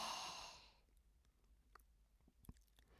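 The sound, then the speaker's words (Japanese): A slow breath out during a guided relaxation exercise: one soft, breathy exhale that dies away within the first second, followed by near silence with a few faint small clicks. “吸って、吐いて。”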